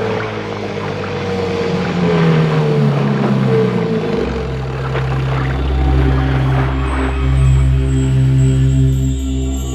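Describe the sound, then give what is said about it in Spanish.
Motorboat engine drones as the boat is launched from a submarine and approaches, a loud, steady low hum with layered harmonics that shifts to a lower, heavier tone partway through. “Se abrió la escotilla y aparecieron unas figuras oscuras que botaron una lancha motora y se acercaron hasta nosotros.”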